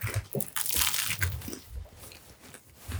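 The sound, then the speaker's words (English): Biting into a spaghetti sandwich: a run of crisp, crunchy bites and chewing, with many irregular crackling bursts that swell and ease off. Nobody speaks. “So let's all take a bite of this. Tell me what you think about my bougie spaghetti sandwich.”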